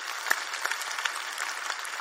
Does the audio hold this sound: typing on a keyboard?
no